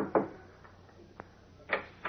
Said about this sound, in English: he knocks at the door of the ground floor apartment.